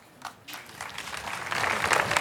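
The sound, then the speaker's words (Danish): Audience applause at a Danish talk on politics, starting as a few scattered claps and swelling into a denser, louder round of clapping. “Det er dejligt, at I er så generøse, altså ved at klappe af de ting, der bliver sagt.”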